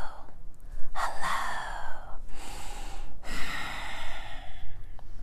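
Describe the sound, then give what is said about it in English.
Ujjayi ocean-wave breathing in a beginner yoga class, a few long whispered exhales rasping softly in the back of the throat, each a breathy rush separated by brief gaps. “sort of like an ocean wave. If you can whisper, hello, you can create that sound. Try it now.”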